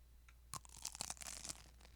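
Crunching of a super crispy snack made that morning: a few sharp, crackly bites and snaps in an irregular run, bright and crisp, with no voices.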